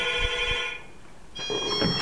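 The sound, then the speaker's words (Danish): A telephone rings and interrupts a conversation, giving steady electronic ringing tones in two bursts with a short quieter gap between them. No voices are heard. “vi bliver afbrudt af en telefonsamtale”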